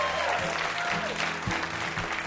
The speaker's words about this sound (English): Huge round of applause for our VIP, Andrew W.K.